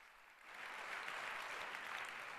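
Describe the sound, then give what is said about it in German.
Applause from a conference audience greeting a speaker introduced for a talk on large-scale security analysis of embedded devices: a dense, steady wash of clapping that swells slightly after the opening moment and holds evenly to the end. “Und jetzt bitte Applaus für ihn.”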